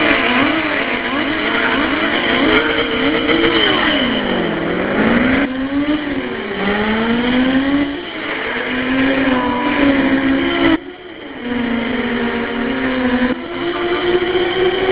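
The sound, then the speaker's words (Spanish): NASCAR race cars roar around the track, a loud continuous engine whine whose pitch repeatedly rises and falls as the cars accelerate and pass. “Vamos con nuestros sonidos dentro de la carrera.”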